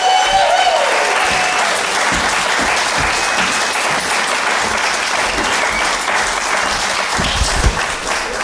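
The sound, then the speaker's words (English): Comedy club audience applauds as a comic is welcomed to the stage, a loud, steady wash of clapping from many hands, with a brief whoop at the start and no let-up throughout. “Put your hands together for the very, very funny Tristan Tyree!”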